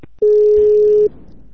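A telephone tone, one steady mid-pitched beep lasting under a second, standing out sharply before it stops, leaving only a faint low background murmur.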